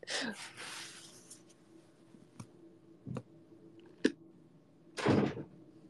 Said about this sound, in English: Jesus, why do people close their doors so loudly?